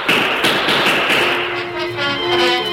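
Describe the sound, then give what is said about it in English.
Gunfire from revolvers drawn and fired rapidly, the shots blurring into a loud, dense, continuous crackle of overlapping bangs with no clear gaps between them. “He drew his guns and opened fire at the Indian.”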